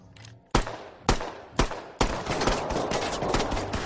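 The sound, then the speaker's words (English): Gunfire in a film scene where police shoot up a trailer: four sharp, loud shots about half a second apart, then a dense, continuous barrage of rapid fire. “Now they're just gonna shoot up the trailer.”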